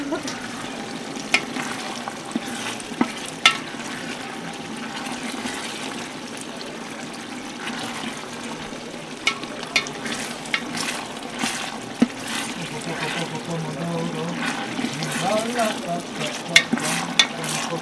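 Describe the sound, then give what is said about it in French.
A pot of pasta simmers and bubbles as it finishes cooking, making a steady, moderately loud seething and bubbling with occasional small clinks and taps over the top. “Et pendant que les pâtes terminent de cuire, pendant que ça mijote”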